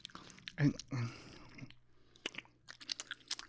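Crunchy, slightly sweet corn snack chewed in the mouth, opening with a couple of loud crunches, then softer squishy chewing with scattered small clicks.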